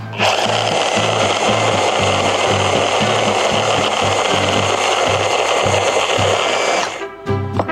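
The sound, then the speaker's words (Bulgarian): A blender whirs loudly and steadily as it blends butter with parsley, onion and garlic into a smooth mixture, the motor droning for about seven seconds before cutting off abruptly. “Така, маслото. Започвам да блендирам, докато получим хомогенна смес.”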